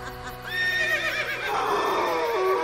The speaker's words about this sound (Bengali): ঘোড়াগুলো কলজে ফাটানো চিৎকার করে উঠল